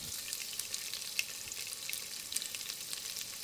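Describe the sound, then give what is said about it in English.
Sizzling of onion frying in a little oil in a pot, being caramelized for a French onion instant noodle soup: a steady, fairly faint hiss with many small crackles and pops throughout, no voices. “And then put it into a pot with a little bit of oil. Then you can start coloring it or caramelizing the onion.”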